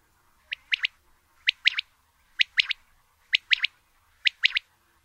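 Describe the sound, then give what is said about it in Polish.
A common quail gives its soft territorial call: five evenly spaced phrases of three quick, high chirped syllables with a small gap after the first, clear and alone against a quiet background. “Wówczas usłyszeć można jej charakterystyczny, miękki głos terytorialny.”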